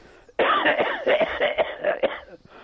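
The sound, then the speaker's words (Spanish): Harsh, raspy coughing from a person, blamed on the cold of Lapland: many rough bursts in quick, uneven succession, with some throat clearing, loud and with no talk. “Perdón por la tos, pero es que en Laponia hace mucho frío.”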